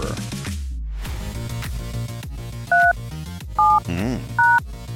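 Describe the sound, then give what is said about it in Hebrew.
Telephone keypad tones as a phone is dialed to call singer Kobi Bomer, three short, loud, evenly spaced beeps over ongoing music, with some talk. “זמן טוב לחייג לקובי בומר בטלפון רגע בשידור חי לזמר קובי בומר.”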